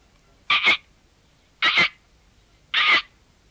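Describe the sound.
A large cricket on a workshop wall gives three short, raspy chirps, evenly spaced about a second apart, each fairly loud and alone.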